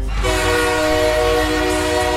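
A train whistle sound effect sounds as one sustained, chord-like blast that begins just after the start and holds at an even pitch and loudness over a low rail rumble.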